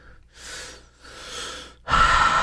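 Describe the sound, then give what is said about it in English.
Deep breaths taken before knocking back a shot: two slow, airy inhalations, then a louder, rougher rush of breath at the end, with no speech. “Again, take a deep breath.”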